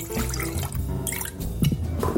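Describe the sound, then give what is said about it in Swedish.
Spirits are poured and mixed for an egg-and-cream drink, with splashing, gurgling liquid and scattered drips, all moderately loud with no talk. “Okej, spriten är framme. Vi börjar med att blanda ihop spriten.”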